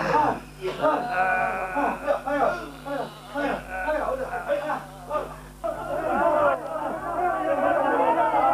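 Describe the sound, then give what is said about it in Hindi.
A crowd of voices shouting slogans in loud, repeated chants that overlap, with a brief dip in the middle before the shouting swells again. “अरे अब ये नारे क्यों लगने लगे साहब”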